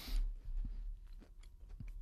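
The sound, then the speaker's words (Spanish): Someone chewing a bite of food they were just offered to taste, with faint, soft, moist bites and small crunches repeating unevenly at low volume. “Eva Soriano mastica, Eva Soriano digiere.”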